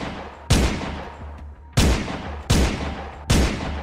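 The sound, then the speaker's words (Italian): Gunfire aimed at the windscreen and side window of a Beta Coupé car: four loud, sharp reports with long decaying tails, unevenly spaced, with no talk. “si materializza davanti a loro e comincia a sparare all'impazzata contro il parabrezza e il finestrino.”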